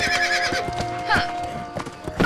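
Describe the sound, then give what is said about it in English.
Horse hooves clip-clop as a horse is ridden through a forest, many sharp, hollow knocks in a steady gait over a sustained tone. “Marion's riding through the forest when Robin leaps out.”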